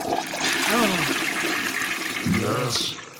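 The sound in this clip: A toilet flushes with a continuous rush of swirling water lasting about three seconds, while voices call out over the noise.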